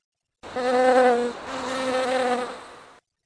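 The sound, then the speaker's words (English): A honeybee buzzes as it flies away, a steady droning hum that dips briefly midway, then carries on slightly quieter before cutting off. “Violet, now free from the frightening grip of Elsa's whiskers, safely started to fly away”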